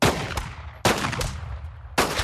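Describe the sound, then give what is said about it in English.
Gunshots are fired at oranges set up as targets: a few sharp, fairly faint cracks at uneven intervals, each followed by a long noisy tail, with no voices. “He shoots every one.”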